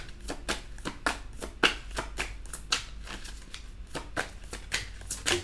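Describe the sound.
Tarot cards shuffled and drawn during a tarot reading, a quiet run of many sharp, crisp snaps and flicks of card stock at a fairly even, quick rhythm.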